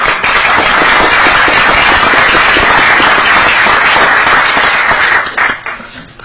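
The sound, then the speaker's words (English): Loud, dense applause for Scout Troop 342 at a meeting, sustained for about five seconds before it tapers off into scattered claps. “Let's give Troop 342 a round of applause.”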